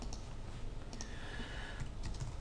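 Rapid keyboard typing on a computer during a vector graphics software lesson, a quiet, steady stream of light plastic key clicks with no talk.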